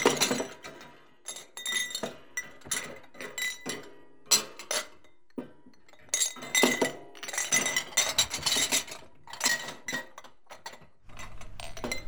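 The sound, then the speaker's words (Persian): Dishes and glasses clink and clatter as they are handled, with many irregular sharp chinks and knocks, some louder than others, across the whole stretch. “صدای ظرفا بود”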